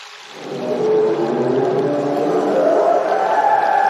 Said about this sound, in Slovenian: Kit pravi, da je čas za slovo.